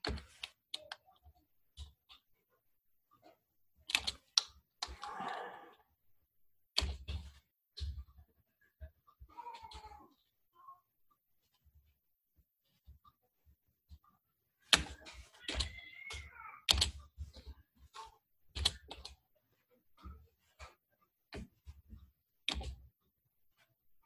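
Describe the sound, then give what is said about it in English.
Typing on a computer keyboard: faint, irregular bursts of clicking keys separated by pauses, with many keystrokes in total. “I can just type today.”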